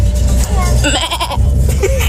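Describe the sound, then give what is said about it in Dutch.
A person's voice imitating a goat bleating: a wavering, nasal, quavering cry lasting about two seconds over a steady low rumble. “ik heel erg goed een geit na kan doen. nou, hier is mijn geit.”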